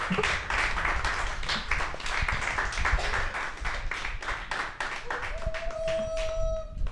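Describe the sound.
Audience applause as a performer is introduced on stage, with dense, steady clapping that continues at an even loudness through the whole seven seconds.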